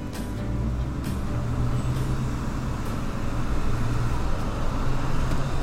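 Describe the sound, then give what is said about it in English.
Car driving along Portage on the outskirts of Winnipeg toward a trucker gas station: a steady, low road rumble with tyre noise at a fairly even level throughout, no voices. “Heading up Portage towards the Flying J, a trucker gas station out here on the outskirts of Winnipeg. Arriving at Flying J.”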